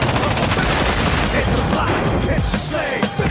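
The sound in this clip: Heavy rapid gunfire during a prison shootout builds a dense, loud barrage of overlapping shots and bursts that rattles on almost without pause, easing slightly near the end.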